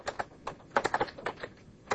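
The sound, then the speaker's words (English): Typing on a computer keyboard while entering a line of code: many quick, light key clicks in an uneven rhythm, with a denser burst of keystrokes in the middle and sparser taps at either end. “we can, for example, just type debug.writeline and write out our value.”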